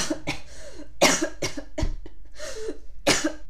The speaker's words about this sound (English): I think me getting a cough attack was a genuine trauma response to that.